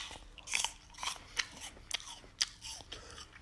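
Crisp crunching as someone bites into and chews a Fuji apple, a series of short, sharp crunches at an uneven pace, fairly faint and alone without talk.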